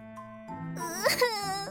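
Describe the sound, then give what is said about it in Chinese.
Performed fake crying by a voice performer: a short, wavering whimpering wail whose pitch swoops up and down, faint and with no other sounds. “各种哭声展，假哭。”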